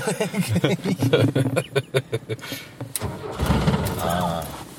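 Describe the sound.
Old off-road car with age-related wear starting up; a man talks first, then the engine cranks and catches at about three seconds and keeps running with a steady, rough rumble.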